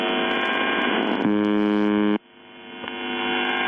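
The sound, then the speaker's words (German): A shortwave station that has broadcast since the late 1970s sends out a harsh, steady buzz that thickens midway, then cuts off abruptly, leaving faint static hiss that slowly swells back up. “Auf 4625 Kilohertz, also Kurzwelle, sendet seit den späten 70ern eine Station, die nichts anderes tut, als diese Geräusche auszustrahlen.”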